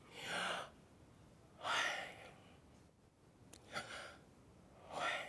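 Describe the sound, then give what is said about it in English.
A person breathes slowly and audibly as part of a breathing exercise, with a few soft, airy breaths spaced roughly a second or more apart and no talking. “If you breathe in, it's...”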